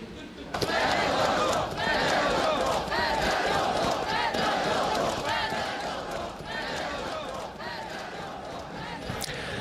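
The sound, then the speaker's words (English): Protesters in Ukraine chant against President Zelensky over the firing of his defence minister: a loud crowd bursts in and keeps up rhythmic, repeated shouting throughout, easing slightly toward the end. “Sounds there of protesters campaigning against the president there in protest at his decision to fire his defence minister.”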